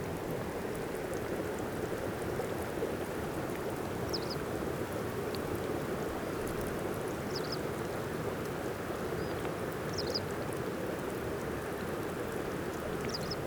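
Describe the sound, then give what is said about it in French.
Melting lake ice fizzes and crackles like champagne bubbles, a steady, faint, dense patter of tiny pops holding evenly throughout with no voices. “C'est tout simplement la fonte de la glace.”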